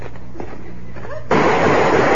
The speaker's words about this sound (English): Oh, they got me. They shot you because you moved.